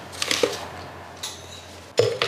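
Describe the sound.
Maltodextrin mixed in a pot makes a few faint metallic clinks and scrapes, spaced apart by quiet gaps.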